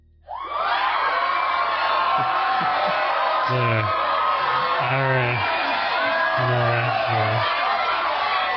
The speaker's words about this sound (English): Catch the studio audience.